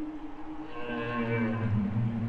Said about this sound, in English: Those male humpbacks sang this collective song late at night in the fall of 2018, close to the Finn Island Research Station, located in Gitgat territory, Hartley Bay, BC.